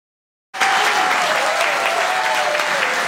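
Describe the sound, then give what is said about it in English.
Audience applause, a dense, even burst of many hands clapping that starts abruptly after a brief silence and carries on loud and steady to the end. “All right, keep clapping, everyone”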